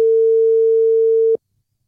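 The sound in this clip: A WhatsApp phone call tone sounds as a single loud, steady pure beep. It is held for just over a second and then cuts off abruptly into silence.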